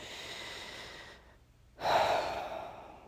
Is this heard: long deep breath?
yes